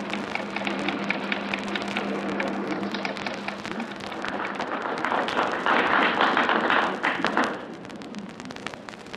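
A telegraph signal returning by submarine cable after a message sent round the world: rapid, irregular ticking taps over a crackling hiss that swells louder before easing off near the end.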